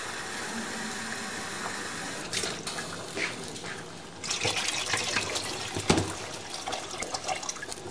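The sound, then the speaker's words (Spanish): Water is poured into a cooking pot of browned meat, about a litre in all: a continuous rushing, splashing stream that grows fuller and louder partway through, with a few small clinks and drips. “ahora me voy a echar el agua. Es 1 litro.”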